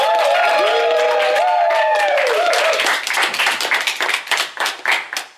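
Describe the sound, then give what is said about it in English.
An audience bursts into applause at a town brewery meeting and show as the new brewmaster is introduced. Sustained sliding tones play first, then a few seconds of dense, loud clapping that gradually thins toward the end. “Everyone, please make some noise for brewmaster Liz Brooks.”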